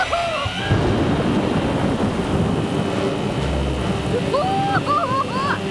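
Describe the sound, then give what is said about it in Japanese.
Thunderstorm at sea around a sailing ship tossed in the waves: a loud, unbroken roar of rain and wind, with a deeper rumble of thunder swelling partway through and no voices. “面倒な嵐になりそうだな。 揺れる、揺れる。”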